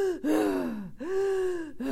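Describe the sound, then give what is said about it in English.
A voice imitates the labored, gasping breaths of someone with punctured ribs and a collapsed lung: two long, strained, voiced gasps, each sliding in pitch, followed by the start of a third. “every breath I took was like,”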